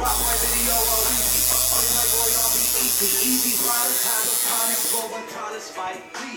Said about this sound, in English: That's the sound of a tattoo gun.